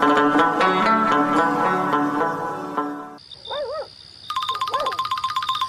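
A phone rings with an incoming call, heard as a rapid, buzzing trill of high pulses in the final seconds, after a stretch of music and a steady tone with warbling cries.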